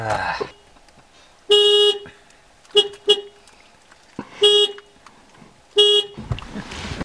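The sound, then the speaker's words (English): Horn honks from a vehicle someone is trying to start: five loud beeps in an uneven pattern, three longer and two short, with rustling noise before the first and after the last. “I'm trying to turn on the vehicle. But if I do this, I'm gonna turn it off, even though it's still off. Let me try.”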